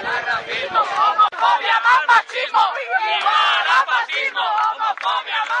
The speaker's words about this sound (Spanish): Ese era el sonido de la manifestación en Alicante contra las declaraciones del obispo Rafael Palmero